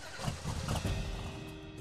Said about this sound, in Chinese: 前面的车子好像开始动了